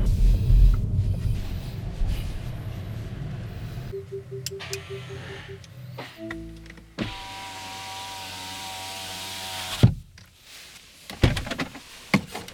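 An electric car with regenerative braking is parked and its parking brake engaged: a low driving rumble gives way to steady whirring motor tones, followed by a few clicks and thumps.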